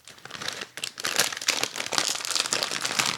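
Bags of Zapp's Voodoo Heat potato chips are crinkled open in a stretch of crisp, rustling plastic noise that builds and comes in bursts.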